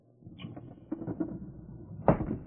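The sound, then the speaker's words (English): Window being pushed open wider: a rough scraping slide with a low rumble, then a solid knock as the frame stops, fairly loud with nothing else over it. “Open the window wider.”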